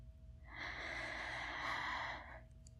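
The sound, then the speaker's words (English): A single deep breath in, drawn as one steady, airy hiss that swells for about two seconds and then stops, with no talking over it. “Ready? One, two, three. Breathe in.”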